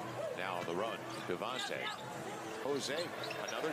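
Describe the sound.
Basketball bouncing in game video footage, with repeated dribble thuds heard beneath steady talking voices.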